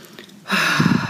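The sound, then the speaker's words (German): A deep breath is drawn in during a guided relaxation exercise. It begins quietly, then swells into a single long, loud, airy inhale with no talk. “Atme ein paar Mal tief ein”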